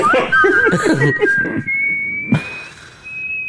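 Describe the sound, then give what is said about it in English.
Whistling by a man: one long, high note held steadily and creeping slightly upward, broken by a brief lower burst before the tone resumes alone. “because this guy's whistling”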